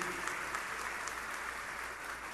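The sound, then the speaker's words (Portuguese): Applause for a Brazilian children's author at an honorary gathering: a steady, even wash of many hands clapping, faint but continuous with no clear voices. “Eu queria mandar uma salva de palmas.”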